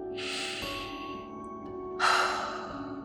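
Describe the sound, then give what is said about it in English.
A big breath in during a calming tapping exercise, heard as two long, airy rushes of breath, loud and breathy with a soft hiss, separated by a short pause and with no talking. “Let's put our hands down by our side and take a big breath in.”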